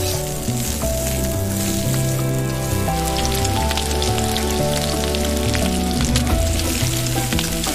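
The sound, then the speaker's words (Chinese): Pork fat sizzles as it fries slowly on a home stove, rendering into amber oil. The dense, even crackle runs throughout, with music playing alongside. “慢煸肥肉熬出琥珀色的油脂”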